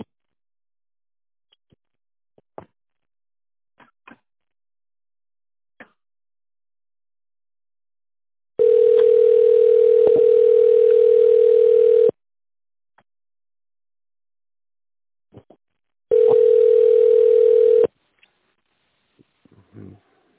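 Telephone line tones play while the caller waits to be connected to an operator. Two steady beeps sound, the first about three seconds long and the second shorter, with faint scattered clicks around them.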